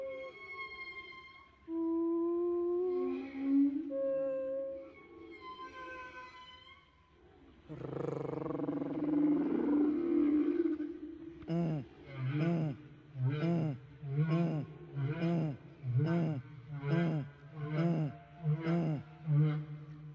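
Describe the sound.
Whale song from a singing male, opening with long harmonic moans that glide up and down, then a broad noisy groan, followed by a long, regular series of short pulsed calls.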